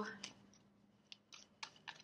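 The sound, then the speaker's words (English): Tarot cards being shuffled by hand with cold hands, heard as a few faint, crisp papery bursts spaced unevenly across the moment. “My hands are cold, so I feel like my shuffling is a little, whatever.”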